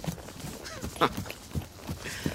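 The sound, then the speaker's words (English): Horse hooves clip-clop as the horse is ridden, giving a few irregular, moderately loud knocks over a low, steady background. “You are the finest horse I've ever ridden”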